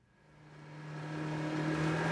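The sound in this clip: A motorboat patrolling the Klamath River gives a steady engine hum that swells gradually louder and brighter, with a constant low drone beneath.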